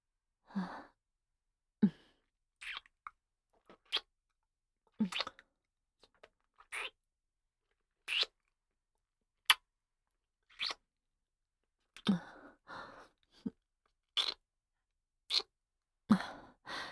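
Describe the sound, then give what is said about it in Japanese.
Many soft, wet kissing smacks on the mouth and cheeks, each short and separate, spaced irregularly with quiet gaps between them. “それでは、お口とほっぺにたくさん甘々チュッチュさせていただきます。”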